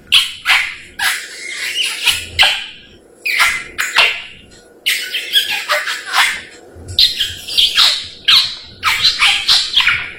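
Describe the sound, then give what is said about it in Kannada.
A parrot squawking by the roadside, many loud, harsh, raspy calls in a rapid, irregular series over about ten seconds, with no talk. “ದಾರಿಯಲ್ಲಿ ಹೋಗುವಾಗ ನನಗೆ ಒಂದು ಗಿಳಿ ನೋಡಿದೆ. ಆ ಗಿಳಿ ಈ ಕೂಗುತ್ತಿತ್ತು,”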